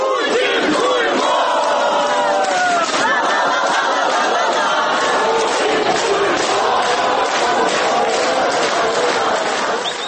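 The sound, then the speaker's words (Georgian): Ukrainian protesters angry at Russian aggression shout chants against Putin, a loud, continuous mass of voices with a rhythmic, pulsing chant throughout. “მოისმენთ, როგორც რუსეთის აგრესიით გაჯავრებული უკრაინელების შეძახილებს.”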